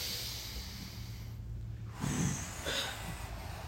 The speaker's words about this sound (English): I just want everybody to just take a deep breath with me this morning.